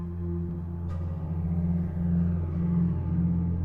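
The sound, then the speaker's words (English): A Range Rover's engine rumbles as it drives through a dusty, barren landscape of rolling hills, a steady low drone that swells slightly toward the end. “The Range Rover drives through the dusty, barren landscape with rolling hills.”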